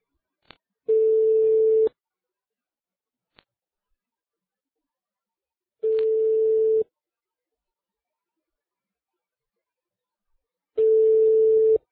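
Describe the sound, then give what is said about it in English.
Telephone ringing tone heard down the line on a call: three steady, mid-pitched bursts of about one second each, separated by long silent gaps, with a couple of faint clicks in between. “I was hoping it would ring. Oh, that sounds like it's ringing.”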